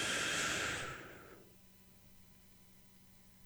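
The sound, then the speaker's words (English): A deep breath drawn in as a breathing exercise, a loud, airy rush of inhaled air lasting over a second before it tapers off into near silence. “breathe as deep as you can, hold it as long as you can, and exhale, just as an exercise. One, two, three. Breathe in.”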